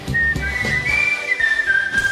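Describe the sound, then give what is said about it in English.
A person whistles a song melody for a name-the-tune guessing game: a clear, high, wavering tone that steps between a few pitches and holds each note briefly. “Could we get back to the whistling, please?”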